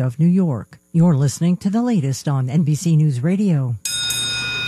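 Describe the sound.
A bell rings at an oil change shop, a bright ringing tone with a lingering ring that follows a stretch of talk and sounds alone at the end.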